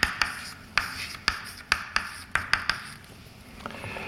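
Chalk taps sharply on a board as a lecturer writes out equations in a physics class on electrodynamics. Many crisp, irregular clicks stand out over a faint room hiss, with no talking.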